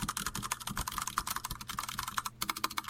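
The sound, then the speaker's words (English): Rapid typing on a mechanical computer keyboard, many quick clicky keystrokes in an uneven, steady flurry. The clicks are fairly faint and heard alone, with no talk. “Type in the mic. I need to hear it.”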